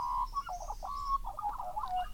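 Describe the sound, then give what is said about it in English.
A little chick sings in its nest, a run of many short, high, tweeting chirps in an uneven rhythm over faint low background noise. “The third little chick sat all alone in the nest and sang.”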